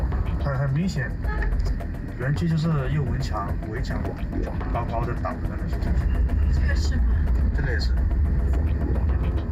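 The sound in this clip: A car driving past scam compounds in Myawaddy gives a steady low engine and road rumble that continues throughout, with people talking over it.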